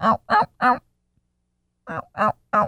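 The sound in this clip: A human voice imitates a wild turkey's yelp: three short, nasal notes in quick, even rhythm, a pause of about a second, then three more, with nothing else audible.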